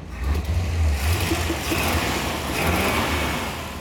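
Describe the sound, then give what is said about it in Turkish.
A 1957 American Thunderbird's 312 5.1-litre V8 idles with a steady, deep low rumble, holding an even level throughout without any revving. “Sesi çok iyi. Evet, motor 312 5.1 litre bir Amerikan V8'i.”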